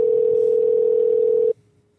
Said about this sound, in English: dial him up here in a second